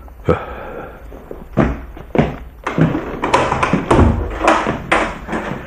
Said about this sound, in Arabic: افتح له الباب يا ولدي، فهو يقول إنه ضيفنا.